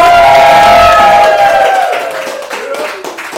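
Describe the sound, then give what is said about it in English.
A live audience cheers, whoops and claps. The noise is loud at first, then gradually dies down over about three seconds. “Please make some noise for the host of Locked On Pelicans.”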